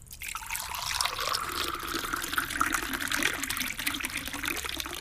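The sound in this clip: Liquid poured into a mug in a steady, continuous stream, a soft watery gurgle and trickle that stays fairly faint throughout, with no voices.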